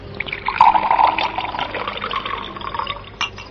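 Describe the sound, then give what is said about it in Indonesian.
Fruit juice drink poured into a cup: a steady trickling stream of liquid runs for a few seconds, wavering in loudness, and ends with a brief final splash. “tolong tuangkan minuman untuk Kulu”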